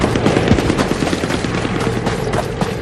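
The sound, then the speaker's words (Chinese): Dense machine-gun fire at a ferry crossing during a battle: many rapid, loud shots run together in a continuous rattling burst that lasts throughout. “先把渡口的机枪打掉。”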